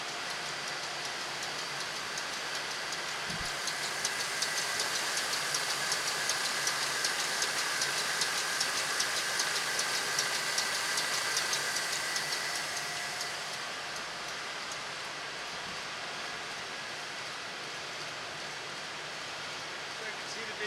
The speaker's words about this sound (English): Now we're back in the middle of the plant. This is the sound of the cardboard boxes for the cans.